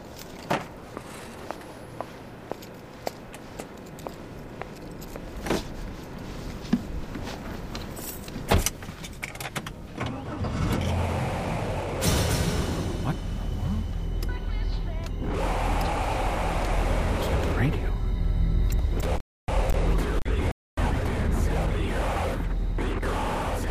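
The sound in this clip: Keys jangle over a few footsteps, then a Chevrolet Suburban starts up and its engine settles into a steady, loud rumble as it drives.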